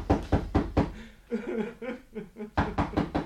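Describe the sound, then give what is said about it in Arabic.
Knocking on the door of a lone hut in the desert: two bursts of about four sharp, hollow knocks, with a wavering, crying voice heard between them. “اما خبط عليه.”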